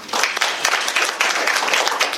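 Applause at a meeting: many hands clapping together in a dense, steady burst lasting about two seconds, fairly loud, without speech.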